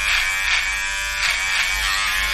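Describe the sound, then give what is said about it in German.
An electric shaver shaves someone's neck, a loud, steady high buzz with slight pulsing as the head moves across the skin, with no talk over it. “Du rasierst mir jetzt ja gerade einen Hals.”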